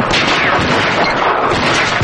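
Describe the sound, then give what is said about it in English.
Gunfire from two handguns fired at once, a dense, loud burst of overlapping shots that blur into a continuous crackle with no clear gaps. “starts firing with a gun in each hand”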